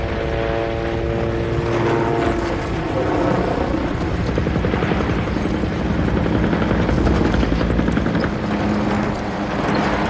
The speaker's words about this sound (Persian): فرمانده شو تو اون هلیکوپتره.